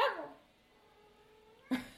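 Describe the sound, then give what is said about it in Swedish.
A human voice imitating a cat trying to bark: a short, strained bark-like yowl trails off into a faint, drawn-out tone, then another brief vocal burst cuts in at the end. “Det låter som att katten försöker skälla. Det låter så här.”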